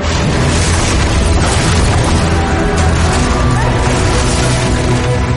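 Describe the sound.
Roaring blasts of fire and explosions as a dragon breathes fire down onto a fleet of ships, a loud, dense and continuous rumble with crashing bursts that never lets up.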